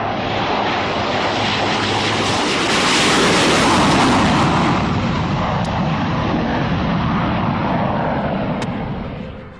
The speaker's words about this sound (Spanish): Mientras tanto, un F-1 despega en busca de lo imposible.